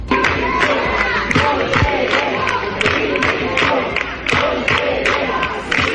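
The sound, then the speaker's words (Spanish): Teachers protesting in the Valencian regional parliament during a plenary session, a crowd chanting loudly in rhythmic bursts with shouts, the voices rising and falling in a steady repeated cadence throughout. “el de un grupo de docentes protestando durante el pleno que se celebraba ayer en las Corts Valencianas”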